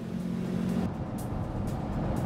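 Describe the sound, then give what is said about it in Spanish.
A car drives away while being followed, giving a loud, continuous engine rumble that holds steady throughout without clear passing peaks. “un oficial del Servicio Forestal lo reconoció y comenzó a seguir el auto.”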